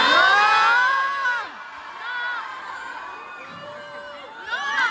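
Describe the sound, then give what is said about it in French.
An audience shouts "no" in reply to a woman speaking on stage about bullfighting in Bayonne, a loud burst of overlapping yelling voices with falling pitch, then scattered quieter shouts and a further rise of calls at the end. “Alors, il y a une partie du public qui dit non.”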